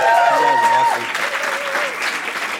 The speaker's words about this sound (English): Can you guys just make noise for the band one time?